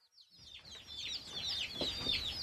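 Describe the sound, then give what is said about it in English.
Chickens cluck and chirp in a continuous busy stream of high calls, rising in loudness after a brief silent start. “So we should put the chicks away in a minute. Oh, there we go. It's week two of the Great Van Tulleken Chicken Experiment.”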